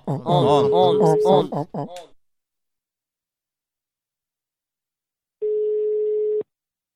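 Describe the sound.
One telephone ringback tone while a call is being placed, a steady single-pitch buzz lasting about a second, comes after a short stretch of a person talking and a few seconds of silence.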